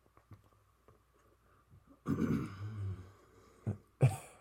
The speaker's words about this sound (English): Dang, that's a long breath.